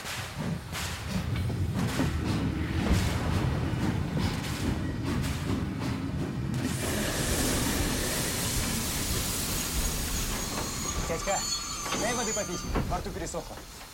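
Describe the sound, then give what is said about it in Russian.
A train rolls backwards, pulling the railway wagons with it. A heavy, continuous rumble with dull thumps carries on at a steady level, and voices come in near the end. “Собакин торопливо раскручивает ручку. Состав едет обратно.”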